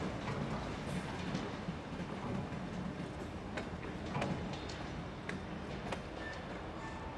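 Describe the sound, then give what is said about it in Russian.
A train pulls away from a platform: a steady, loud rumble of rolling stock with intermittent clicks and metallic clatter throughout, and no voices. “Аня бежит по перрону. Поезд удаляется.”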